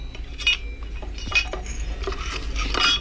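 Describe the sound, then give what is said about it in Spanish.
Light metallic clinks and clatter as the metal cover over a robot's electronic brain is opened, a few brief bright taps over a quiet hiss, with no talk. “Banda, ábrele la tapa que cubre el cerebro electrónico.”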